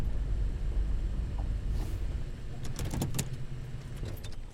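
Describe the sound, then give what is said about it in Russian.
A car engine rumbles low and steady as the vehicle pulls up to a wealthy family's house, with a few brief metallic clicks and jingles near the end. “Палмер подъезжает к богатому дому Колсов.”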